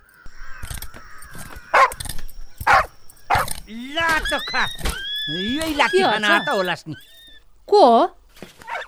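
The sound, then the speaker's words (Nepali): A dog barking in a Nepali comedy scene: several sharp, loud barks, then voices talking and shouting, and one more bark near the end. “कस्तो कुकुर पाल्या हो यस्तो, त्यसै खाउला नै अर्छ बा।”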